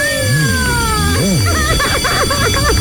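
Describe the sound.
A telephone rings with loud, steady electronic ringing tones in a warbling, repeating pattern, and a voice breaks in briefly over it.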